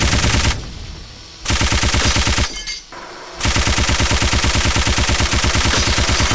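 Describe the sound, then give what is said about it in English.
A machine gun fires in three loud bursts of rapid, evenly spaced shots separated by short pauses, with the final burst running the longest. “Missile was supplied. Machine gun.”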